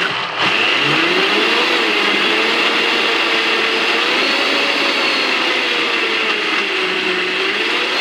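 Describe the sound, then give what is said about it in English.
A blender whirs through a smoothie of kiwi, avocado, lime, kale and frozen banana. The motor whine is loud and continuous, with its pitch wavering up and down as the frozen fruit and greens churn, and no talk over it. “So in this we have the kiwi, avocado, lime to add some freshness, and kale, and a frozen banana. So we're gonna quickly whisk it now.”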